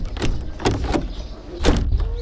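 A house door is opened to check who is at the entrance, producing a few sharp clattering knocks and thumps of wood and latch with softer scraping between them, moderately loud.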